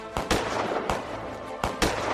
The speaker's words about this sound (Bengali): চার ঘোড়সাওয়ারের দিক থেকে পরপর বন্দুক গর্জে উঠতেই দুজন জিপসি মাটিতে পড়ে গেল।